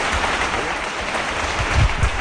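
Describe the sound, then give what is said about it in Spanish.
Applause in a church from members of a religious brotherhood backing a difficult decision, a dense, steady wash of many claps with a few deeper thumps near the end. “La iglesia, los hermanos que rompen aplausos apoyando la decisión de la Junta y del hermano mayor, María Hermán”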